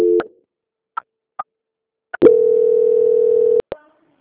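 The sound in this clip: A telephone call transfer tone sounds as a customer-service call is handed on. A brief low tone and a few short clicks lead into a steady mid-pitched tone held for over a second, followed by more clicks.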